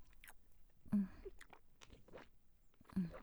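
Someone bites into and chews a salty snack: soft, faint crunching and chewing, with two louder bites standing out.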